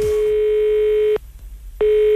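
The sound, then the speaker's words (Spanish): A ringing tone on a telephone line for a live radio call: a loud steady mid-pitched tone cuts off, a short silent gap follows, and the tone starts again. “El teléfono está activo, atención.”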